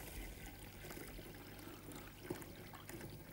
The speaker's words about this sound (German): Und wir können den Ansatz jetzt in die Flasche geben. Und am besten natürlich mit einem Trichter, damit nichts überläuft. Schön vorsichtig.